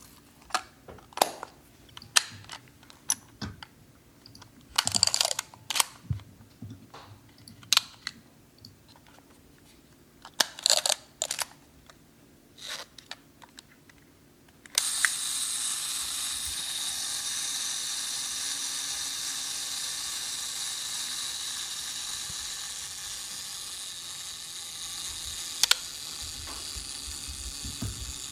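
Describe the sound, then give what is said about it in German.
A Yashica 35cc film camera produces a series of sharp mechanical clicks and ratcheting bursts from its shutter and winding mechanism, irregularly spaced and fairly faint, before a steady high hiss takes over. “schicke ich euch ein Geräuschrätsel von einer Yashica 35cc”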